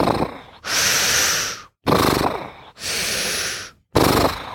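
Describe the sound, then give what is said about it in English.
A voice imitates noisy scuba breathing through a diving regulator: loud, rasping hissed inhales and exhales alternate in a steady rhythm, several breaths in a row, with short silent gaps between them. “the interesting thing about diving is people don't realize is your breath is extremely noisy. It's like,”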